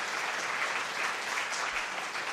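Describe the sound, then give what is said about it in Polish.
Applause from a church audience for a choir, its conductors and accompanists after their performance. Dense, even clapping runs steadily for a couple of seconds without any voices over it. “Także mamy naprawdę wspaniały chór, wspaniałych dyrygentów i akompaniament i brawa dla was.”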